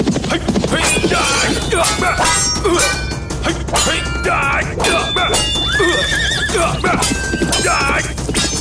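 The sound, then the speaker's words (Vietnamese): Horses neigh again and again amid galloping hooves in a battle scene between two generals fighting on horseback, loud and busy, with sharp metallic clangs of weapons mixed in. “Hai tướng mã lồng lên, hai tướng quân hăng hái, chiến bào xoay tựa hoa gieo bướm dần.”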